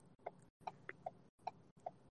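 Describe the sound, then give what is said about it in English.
A car's turn signal ticks while the car is being driven, giving faint, crisp clicks in a steady, even rhythm, about five at regular intervals. “Who's ticking? That's hilarious. Like, what is the ticking? That's my turn signal. I'm still driving.”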